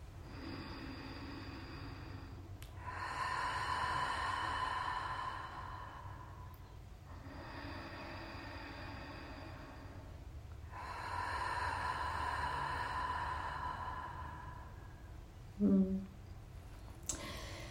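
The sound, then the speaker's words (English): Slow, deep breaths taken during a guided relaxation: three long, soft, airy breaths of several seconds each, separated by quiet pauses, with a small click near the end. “Couple deep breaths right here.”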